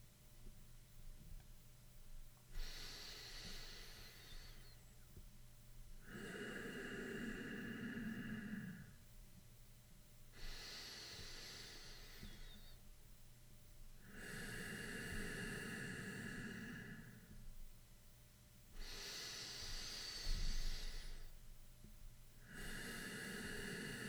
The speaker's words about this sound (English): Again, let's breathe 4 times, maintaining the same count. You can breathe along with me.